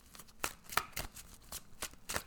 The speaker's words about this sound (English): let's go ahead and pull some cards for the week.